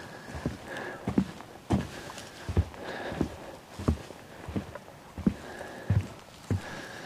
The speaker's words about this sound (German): Der Holzsteg scheint ja noch eine Weile zu gehen hier. Bin gespannt. Ist wirklich schön drauf zu laufen, vor allem, weil man so in das Moor reinguckt.